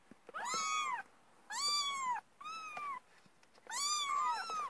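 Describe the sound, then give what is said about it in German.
A cat meows four times, each call a loud, drawn-out cry with a bending pitch, separated by short pauses. “Ich denke, das war die Katze”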